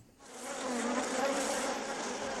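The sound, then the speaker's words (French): Farmed bumblebees buzz inside a hive kept for pollinating tomato flowers. The dense, steady drone swells in within the first moment and then holds a continuous, fairly soft hum with no voices over it. “C'est une ruche. Elle est pleine de bourdons. Ils ne sont pas là pour s'amuser, ils sont là pour travailler.”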